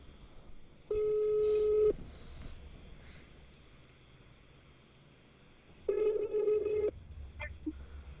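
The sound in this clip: Ringback tone heard while placing a phone call to someone: two long, steady ring tones about five seconds apart, fairly faint, with quiet line noise between them.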